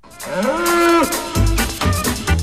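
A bull lowing: a long, deep moo rises in pitch and then holds steady for about a second. Several shorter, rough low calls follow. The calls are loud and stand alone with no talk.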